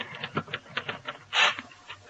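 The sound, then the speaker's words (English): Typewriter keys clacking in quick, irregular strokes, many sharp taps at moderate loudness, broken by one longer, louder rasping burst partway through before the tapping resumes, with no voices. “I don't know why I can't read these things after they come out of the typewriter.”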